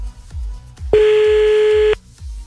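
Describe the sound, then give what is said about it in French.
A single telephone keypad tone sounds while dialing a call. It is a loud, steady beep of about one second, with a few soft low thuds before and after it and no voices. “Bon, allez, il a mérité un deuxième appel. Allez, deuxième appel”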